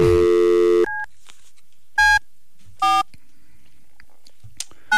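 Telephone keypad tones as a call is dialed: a long sustained tone opens, then a few short, separate beeps follow with quiet gaps between them, clear and without talk.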